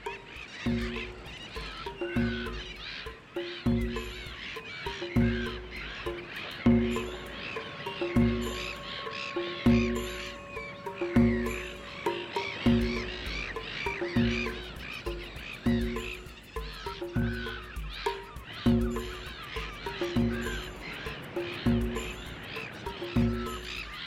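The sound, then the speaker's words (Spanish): Breeding seabird colony of gulls, cormorants and gannets gathered by a food-rich ocean: many harsh cawing and honking squawks overlap in a dense, continuous chorus throughout. “Millones y millones de gaviotas, cormoranes o alcatraces se reúnen para criar allí donde los océanos son especialmente ricos en alimentos.”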